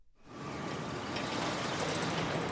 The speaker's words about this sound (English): That's the sound of a normal car going about 20 miles an hour here in downtown Washington, D.C., where I'm standing.